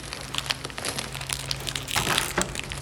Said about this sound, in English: Let's take the plastic off.